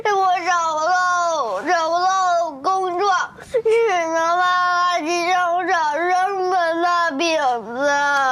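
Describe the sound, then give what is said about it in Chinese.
Child crying in loud, wavering wails and sobs that rise and fall in pitch, broken by short gasping pauses and continuing for the whole stretch. “好了好了，不哭了啊，不哭了不哭了，不会了啊。”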